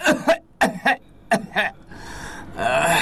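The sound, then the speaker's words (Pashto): A patient coughs on request during a medical check for stomach pain, giving several short, forceful coughs that come in quick pairs, followed by a softer noisy stretch. “آفرین آفرین، وټوخېږه په زوره لږ”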